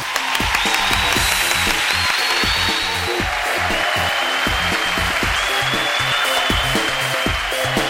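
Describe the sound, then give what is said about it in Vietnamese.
Audience applause for a birthday, a dense, steady wash of many hands clapping that holds at an even, loud level throughout, with no gaps or breaks. “tất cả chúng ta cho một tràng pháo tay nào!”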